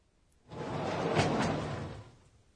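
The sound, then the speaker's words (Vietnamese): A sliding door pulled open, one smooth, breathy rumbling slide of about a second and a half that swells and then fades, heard alone. “Đây là âm thanh khi kéo cửa trượt để mở ra, phải không ạ?”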